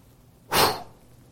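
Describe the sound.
A single breathy blow, a voice imitating God breathing life into a man formed from dust: one short, forceful exhale that swells quickly and trails off, alone against near silence.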